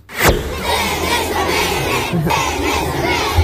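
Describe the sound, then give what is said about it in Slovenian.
A group of children shout together after a sharp onset, a loud, dense wash of many voices held steadily for about three seconds. “Zdaj ima kup enih otrok okrog sebe.”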